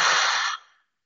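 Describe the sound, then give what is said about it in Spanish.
A deep exhale through the mouth during a guided breathing exercise, after a breath in through the nose. It is a single long, airy breath, steady at first and then tapering off into silence. “Una vez más, inhala profundo por nariz. Sostén. Y exhala todo por la boca.”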